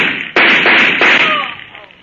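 A gunshot sound effect in a radio drama, fired at a woman: a sudden loud bang with a rough, noisy tail that fades away over about a second.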